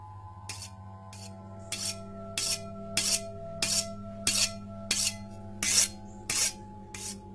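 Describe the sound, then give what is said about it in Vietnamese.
A knife is sharpened on a whetstone in eleven evenly spaced, harsh grinding strokes, each a short scraping rasp, repeating in a slow, steady rhythm over a continuous low hum. “Bà cụ lắng tai nghe thì bất chợt dùng mình nhận ra đó là tiếng mài dao.”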